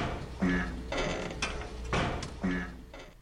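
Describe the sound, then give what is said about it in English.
Mechanical clunking and whirring of an elevator engine starting up after a button-order puzzle in a video game, a steady series of repeated mechanical pulses with creaking, gear-like texture. “Yes! It's working. First Richard safe, now an elevator engine.”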